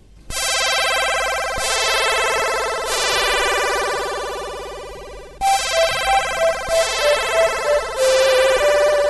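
A chiptune track in Commodore 64 style. Bright, buzzy square-wave chords ring out and decay in slow repeated swells. About midway a pulsing, rhythmic electronic melody joins in and keeps going to the end.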